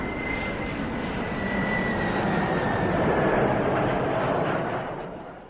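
An airplane flies past with a steady, broad engine drone and a faint high whine. The sound holds for several seconds with no voices, then fades near the end.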